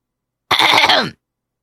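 A single loud throat clearing, a rough, raspy rasp of about half a second heard alone against silence.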